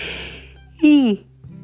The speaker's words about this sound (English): Pardon me, big morning yawn.